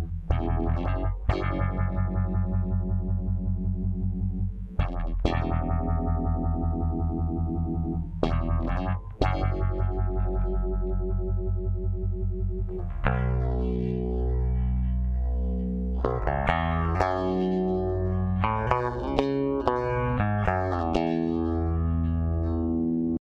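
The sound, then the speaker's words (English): Bass guitar played through a rotovibe effect pedal, sounding wobbly and distorted. A few separate plucked notes ring out and decay, then denser passages with wavering, sweeping pitch follow. No voices. “put the bass through a guitar effect called a rotovibe pedal, which made it wobbly in interesting ways.”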